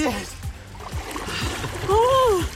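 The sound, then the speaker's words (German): Two people jumping into ice-cold water at an outdoor bath, with repeated low splashing and sloshing, and a loud voice cry rising over the water near the end. “3, 2, 1, los! Und im Wasser sind sie.”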